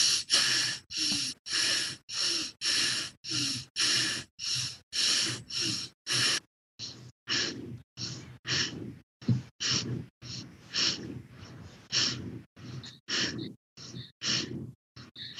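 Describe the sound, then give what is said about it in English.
Forceful, rapid breathing exercise: many sharp, rhythmic breaths pump in and out at a steady fast pace, loud and breathy with no talking, the breaths growing slightly shorter and choppier in the second half. “we're going to breathe a little bit forcefully, just a little bit faster. So it's going to sound like this.”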